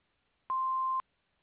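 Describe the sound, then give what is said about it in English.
An answering machine gives one steady electronic beep, mid-pitched and about half a second long. It starts and stops cleanly and sounds alone, with silence on either side. “after the beep. We will return your call.”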